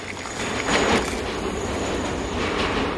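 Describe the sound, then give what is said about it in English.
A subway train rushes through a disused station: a steady, loud rumble of wheels on rails with a brief swell near the start and no voices. “Subway tracks are a blur as a train passes through a disused station, which is now home to hobos and rollerbladers.”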